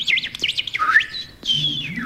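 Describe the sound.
Pet bird chirping, with a quick run of high, sweeping warbled chirps followed by a short pause and a longer, sliding high whistle, fairly loud and with no voices.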